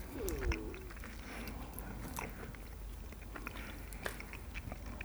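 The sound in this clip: Someone chews milk chocolate with hazelnut pieces, producing faint, steady mouth sounds with many small crisp crunches and clicks over a low background hum, no talking.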